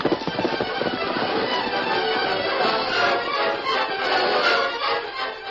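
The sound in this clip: A radio drama effect of the horse Silver galloping away: a fast, drumming patter of hoofbeats in a dense noisy wash, steady in loudness and thinning slightly at the end.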